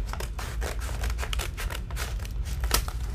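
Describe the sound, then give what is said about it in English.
Scissors that cut poorly snip repeatedly in a quick, uneven rhythm: many crisp, papery cutting strokes with slight crinkling, and no talk. “How's that ASMR? The scissor sucks. Am I getting anywhere? Did I cut anything?”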